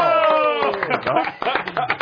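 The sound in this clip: Audience applause greets a guest being introduced, a quick burst of clapping mixed with a voice speaking over it.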